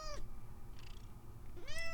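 A pet cat meows twice, wanting to go outside; two short, fairly faint tonal calls separated by over a second of quiet, with no speech.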